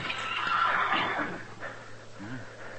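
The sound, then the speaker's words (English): A saddled horse with a bedroll tied behind, hitched at a corner, gives a faint, breathy whinny that wavers and trails off, over a steady low hum. “There's a horse tied there at the corner. Yeah. All saddled up. Bedroll tied on behind.”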